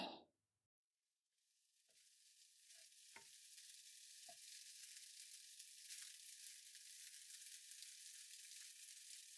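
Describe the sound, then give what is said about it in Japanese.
Finely chopped onions sizzle in a frying pan as they cook down until caramelised. A sharp burst and a brief hush come first, then a steady, bright hiss builds and holds, with a few faint knocks from stirring and no voices. “玉ねぎをみじん切りにして、飴色になるまで炒めて、”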